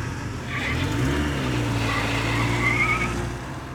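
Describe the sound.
A car speeds off in a getaway with its tyres skidding, the engine revving up in pitch while high tyre squeals cut in and out over a continuous loud roar.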